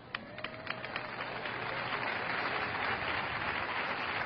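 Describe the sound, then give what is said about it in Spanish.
A church audience applauding during a service, dense continuous clapping that builds over the first seconds and then holds at a steady, loud level. “Cuando aplauda, diga, el aplauso es para ti, Jesucristo.”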